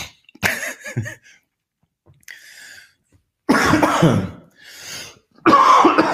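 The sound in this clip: Harsh coughs and throat-clearing from a person trying to clear spittle from the throat, several loud irregular bursts separated by short pauses, one of them quieter.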